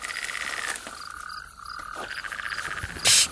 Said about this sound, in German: Die Kröten haben aufgehört